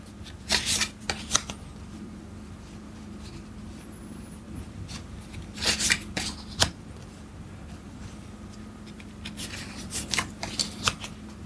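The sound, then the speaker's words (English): A hand of playing cards being handled and tidied during a card game: crisp papery riffles and flicks come in a few short clusters, separated by quiet stretches, with no talking. “Just going to tidy the hand up a bit, less spreading out these cards a bit.”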